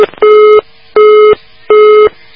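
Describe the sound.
Telephone busy tone after a dropped call: three loud, steady, evenly spaced beeps of equal pitch, each about 0.4 seconds long, with a brief click at the start and no voices.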